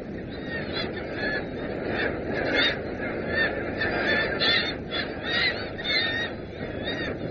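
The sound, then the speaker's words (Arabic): Seabirds of a gannet colony in Newfoundland calling continuously: many harsh, honking cries overlap into a dense, steady chorus with no break. “وما يزال هناك بعض المستعمرات كمستعمرة طيور الأطيش هذه في نيو فاوند لاند”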